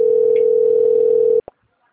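Telephone ringing tone heard by a caller while a call is placed, a single steady low-pitched tone held for about a second and a half, then cut off by a short click, followed by silence.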